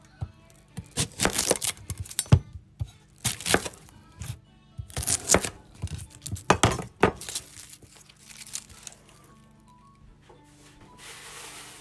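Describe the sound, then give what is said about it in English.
A knife quarters an onion, giving a run of crisp, crackling cuts and knocks in an irregular rhythm that thin out into quieter rustling near the end. “Need to quarter the onion.”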